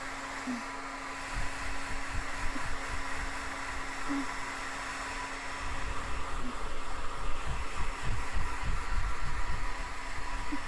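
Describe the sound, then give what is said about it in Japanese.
Hair dryer blowing steadily while drying hair after brushing, a continuous whooshing whir with a low motor hum that grows slightly louder in the second half, with no talking over it. “それじゃあ、乾かしていきますね。 暑かったら言ってください。”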